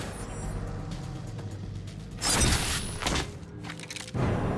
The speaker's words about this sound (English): Oh, sniper shot. Brooks pushes her out of the way and then takes the shot.